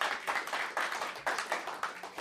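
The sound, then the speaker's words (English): Clapping for a band's members: a faint, steady run of sharp claps coming at a regular, quick rhythm, with no voices over it. “Also, give it a round of applause to his band members, Teodros Avery, Gene Coy, Corbin Jones.”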